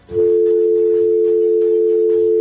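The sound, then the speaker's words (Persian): Disconnection tone after a phone call drops: a single loud, continuous low-pitched tone that starts abruptly and holds unbroken for over two seconds, with faint rustling beneath. “فکر میکنم که تماس قطع شد”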